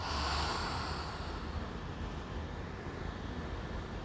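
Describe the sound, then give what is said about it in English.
A deep breath drawn in through the nose and let out through an open mouth, heard as a steady breathy rush of air that is loudest at the start and then holds at an even level. “take a deep breath into the nose and exhale open mouth”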